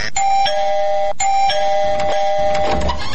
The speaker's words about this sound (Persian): بگی زنگ بزن. خب باش که من زنگ دروازه شانه پیدا کنم.